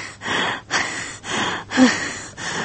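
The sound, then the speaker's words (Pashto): A patient breathes quickly during a doctor's examination, about five loud, rasping breaths in a steady, fast rhythm, heard alone without talk. “سا دې ژر ژر وباسه”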